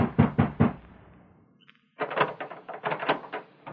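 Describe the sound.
A fist pounds on the sheriff's door: first three sharp, evenly spaced knocks, then a short pause and a longer, faster run of heavy bangs.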